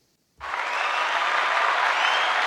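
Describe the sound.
A studio audience bursts into applause after a brief silence, a sudden onset that settles into a loud, dense, steady roar of clapping.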